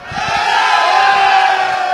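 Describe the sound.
Crowd of São Paulo (Tricolor) football fans cheering in the audience, a sustained, dense roar of many voices that holds steady for about two seconds.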